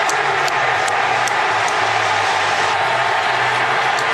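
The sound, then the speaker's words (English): A baseball crowd at the Oakland Coliseum roars after a walk-off home run in the bottom of the ninth, a loud, dense and unbroken wall of noise that holds steady throughout. “Absolute, complete, and total bedlam at the Oakland Coliseum.”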